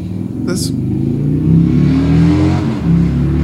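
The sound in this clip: A car with loud exhaust pipes revs outside, giving a deep, throaty engine roar that surges higher and settles back over a few seconds.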